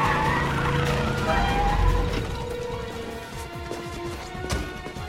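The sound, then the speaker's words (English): Car tires spit gravel as a vehicle arrives near a ferry, giving a rough crunching, skidding noise over sustained musical tones. “The tires spit gravel as Molly starts to make her way downstairs to disembark.”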